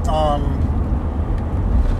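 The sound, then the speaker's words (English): Steady low rumble of a car driving on a road on the way to a store, a continuous engine and road drone with a voice heard briefly over it at the start. “I'm currently driving to the store to pick up some dirt so that I can make the Mother's Day present”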